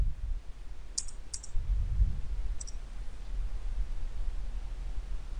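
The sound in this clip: A few sharp, faint computer mouse clicks tick over a low steady rumble as a new database query is opened; no voices are heard.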